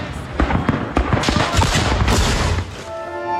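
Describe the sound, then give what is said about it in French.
Gunfire in trench fighting near Avdiivka before dawn, with Ukrainian soldiers under attack. Dense, overlapping sharp cracks and bangs arrive in rapid, loud bursts, then thin out toward the end. “Impossible de visualiser l'ennemi, mais déjà les échanges de tirs sont intenses.”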